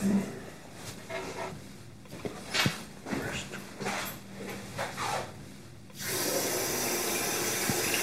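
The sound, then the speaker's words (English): Water runs from a tap as a man washes his hands. Soft shuffling and breathing come first, then the tap opens abruptly into a steady, full rush of water. “He's washing his hands.”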